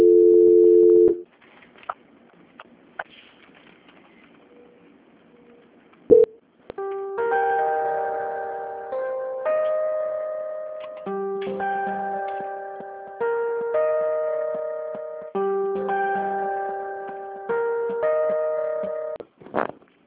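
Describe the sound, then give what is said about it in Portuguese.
Telephone hold music after a call transfer: a short steady tone and near silence with faint clicks, then a simple electronic melody of repeating bright synth notes, thin and band-limited like a phone line. “A ligação vai ficar muda, vai ficar tocando uma musiquinha, tá bom?”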